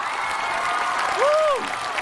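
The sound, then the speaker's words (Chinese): An audience applauds to welcome two guests onto the stage of a Chinese variety show, a steady, even wash of clapping with a brief tone that rises and falls midway. “接下来让我们用掌声欢迎寻风团成员蔡国庆和寻风好友韩雪，欢迎两位。”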